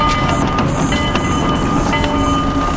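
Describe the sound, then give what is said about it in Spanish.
A slow, heavy train rolls along railway tracks during a caravan event bound for Uruguay, producing a steady, loud, dense rumble with a constant broad rattle and no distinct separate clacks. “Atención a aquellos que están sobre las vías, salgan de ahí. Cuidado. Es el tren de la bondad. Ojo que es lento pero pesado.”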